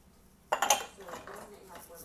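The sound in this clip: A glass clinks among dishes being handled, a quick cluster of sharp, bright clinks followed by softer clattering.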